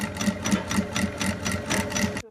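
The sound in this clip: A sewing machine stitches steadily in a handmade sewing studio in Wuhan where beginners are making a small coaster, a fast even mechanical whir with a regular rhythmic pulse that stops abruptly at the end.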